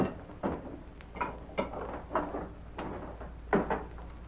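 A safe full of cash is shut and locked, heard as a few faint clunks and knocks of the heavy door and its mechanism. They are spread unevenly over a low, steady background.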